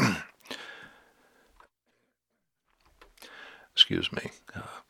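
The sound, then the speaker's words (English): A person clears their throat and coughs. After a quiet gap, several rough, harsh bursts follow close together, with a couple of faint vocal sounds near the start. “You have those times when you get these frogs in your throat and you just got to hack and cough.”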